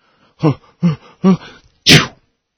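A human sneeze: three voiced, gasping "ah" intakes build up in a steady rhythm before one loud, sharp, hissing burst ends it, heard alone without other talk.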